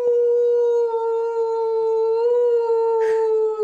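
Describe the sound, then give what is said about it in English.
A person imitates a wolf with one long, loud, sustained howl held at a steady pitch throughout, done as a morning practice. “I started the howling, which is actually my favorite practice now”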